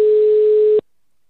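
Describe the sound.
A telephone line tone sounds after a number is dialed: one steady mid-pitched beep lasting under a second, then abrupt silence.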